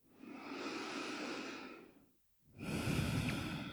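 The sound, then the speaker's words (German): Deep breathing in and out during a heart-focused meditation exercise: a long, airy breath, a short pause, then a second full breath, soft and steady with no talking. “Atme tief in den Herzraum ein und aus.”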